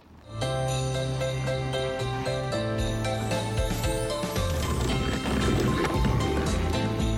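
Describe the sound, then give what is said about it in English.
A horse-drawn sleigh ride in the snow brings rhythmic hoof clip-clops and light jingling under loud, steady music that runs throughout. “So I can't help but ask, this is a sleigh. It seems like the perfect time of day with all the snow. Do you want to go for a ride? Of course. Hey, coachman.”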